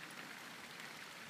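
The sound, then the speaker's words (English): Light steady rain falls among small trees in a residential estate. It makes a faint, even hiss with soft patter from scattered drops, with no voices. “I'm not getting pissed on. And it's not flogging rain. And it's a long way from pouring.”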